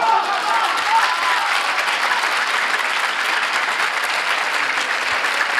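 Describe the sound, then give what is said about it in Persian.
A crowd claps along at a religious gathering praising Hussein, producing loud, dense clapping with a steady rhythmic pulse that keeps going for several seconds. “کف قشنگ بزن، دست بیار بالا”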